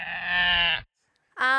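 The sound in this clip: A goat bleats twice, loud and alone. The first bleat is long and wavering. After a short pause comes a second, higher-pitched bleat that cuts off abruptly.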